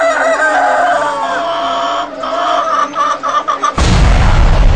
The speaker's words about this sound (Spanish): Y en el programa de hoy haremos el experimento de dar pólvora a unas gallinas.